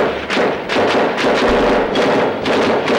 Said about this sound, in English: The sounds of automatic weapons fire still ring in the ears of people in this normally quiet Los Angeles neighborhood.